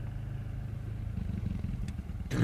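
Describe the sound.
Throbbing low rumble of a quad bike engine idling on a track, steady and moderately loud, with a short sharper burst of noise right at the end.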